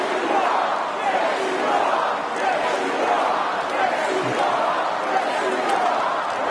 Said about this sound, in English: When Trump said, "I'm not supposed to be here tonight," the crowd responded with,